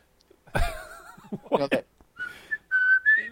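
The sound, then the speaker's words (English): Someone whistles the Old Spice commercial jingle as a few short, clear notes, some of them rising, after a brief burst of vocal sound at the start. “And I keep hearing it. And I figure out it's the Old Spice thing.”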